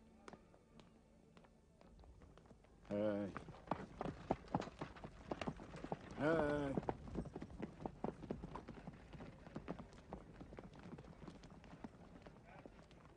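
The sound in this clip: Horse hooves clip-clop in a steady, uneven rhythm while people talk over them, with the hoofbeats continuing throughout.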